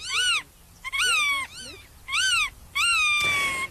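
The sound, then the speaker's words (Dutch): Calls of a black-tailed godwit, a meadow bird, ring out in a series of loud, nasal, harmonic notes, each arching up and then down in pitch, with short gaps between the phrases and no voices. “Het gaat niet goed met de bescherming van deze vogel.”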